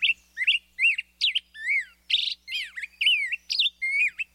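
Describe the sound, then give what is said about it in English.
A black-headed grosbeak sings a fast, up-tempo run of rich warbled whistles, with many short rising and falling notes repeated in quick succession and brief gaps between them. The song stands alone, without voices. “And now, the up-tempo performance of the black-headed grosbeak.”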